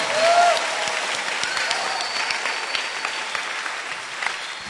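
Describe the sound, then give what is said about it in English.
An audience clapping hands during a church service: sustained, dense applause from many people, fairly even in loudness throughout, with scattered sharper claps popping out of the steady wash. “clap your hands for this”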